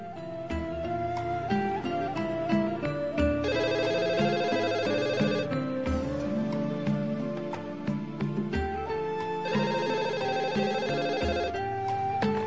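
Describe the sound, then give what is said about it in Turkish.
Telephone ringing with an incoming afternoon call from a hospital: two long, bright, trilling ring bursts separated by a gap, set against a steady tonal backdrop. “Öğleden sonra hastaneden bir telefon daha geldi.”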